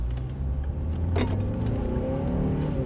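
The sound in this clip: A Volvo XC60 accelerates hard in sport mode, its engine note climbing steadily in pitch over a deep, continuous rumble that stays loud throughout.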